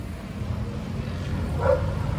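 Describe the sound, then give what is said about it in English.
A dog barks briefly on a street in Colombia, one short yip standing out near the end over steady low background noise. “damn dog”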